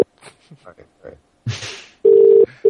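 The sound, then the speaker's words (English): Telephone ringback on a call: two steady, mid-pitched tone bursts, the second cut off at the end. Brief talk and a short noisy burst come before them. “All right, maybe it just didn't drop. Let's see if it rings.”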